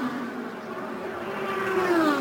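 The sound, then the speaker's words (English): A race car spins on the track in a turn, heard as a steady engine drone whose whining tones shift in pitch and grow slightly louder toward the end. “Oh, we have a car spinning, and that's Kimball.”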